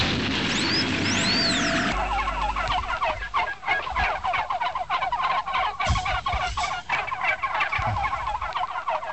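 Turkeys gobbling in a dense, continuous chorus of many overlapping warbling calls, loud and steady throughout with no talk.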